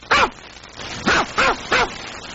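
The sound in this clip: A small Yorkshire terrier barks outside a police station door: four sharp, high yapping barks, one alone, then after a pause three more in quick, even succession.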